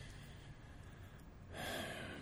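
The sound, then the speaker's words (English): A deep breath is drawn in during a guided breathing exercise: a soft, airy inhale that swells in the latter half over a faint background hiss. “Pull that breath in and hold on to it.”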